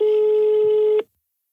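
Telephone ring tone from an outgoing call being placed: a single steady, buzzy tone holds loud for about a second, then cuts off into silence, with no voices.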